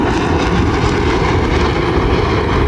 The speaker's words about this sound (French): Et voilà les rafales qui arrivent environ 5 minutes plus tard à notre droite, côté Laval, avec leur nez pointu, attention aux oreilles.